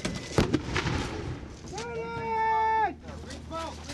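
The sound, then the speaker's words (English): Simulated bombing blasts during an unexpected casualty training exercise for Alaska National Guard infantry troops at Camp Shelby, Mississippi: a few sharp bangs early on, then a loud, sustained wavering wail, with voices mixed into the commotion. “In Camp Shelby, Mississippi, troops and Bravo Company react to simulated bombings in what's called an unexpected casualty exercise.”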